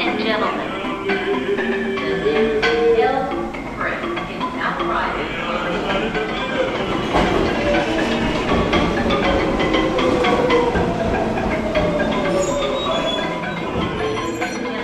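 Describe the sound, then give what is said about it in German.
Heard from inside a crowded New York subway train late at night, the train rides along the rails with a continuous loud rumble and rattle while many people talk throughout. “Der Zug, in dem ich stehe, ist trotzdem voll.”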